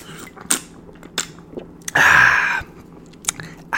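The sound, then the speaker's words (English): Close-up drinking from an overfull drink held right next to the microphone: a few soft mouth clicks, then one loud, breathy slurp lasting about half a second, followed by more faint clicks. “Right next to the microphone. It's too full. This is too full, but it's going to be very good as a drink. Here, listen to me drink it up.”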